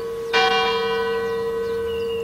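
A church bell rings with a single clear strike over a lingering hum, followed by a long, sustained ringing tone that slowly fades.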